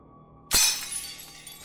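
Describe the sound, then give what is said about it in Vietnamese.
Something falls and breaks at a front door: one sharp, loud shattering crash, then a tinkling decay of scattered fragments. No voices. “Chợt có tiếng rơi vỡ ở cánh cửa phía trước.”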